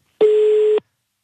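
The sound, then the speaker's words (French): A single telephone tone on a call: one flat, steady electronic beep lasting just over half a second, clean and alone against silence. “On fait sonner le téléphone ce matin du côté de Weiler, à côté de Vissembourg.”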